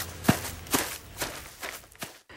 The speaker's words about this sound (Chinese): 郝三儿气哼哼地走了，一路回到家，开门进屋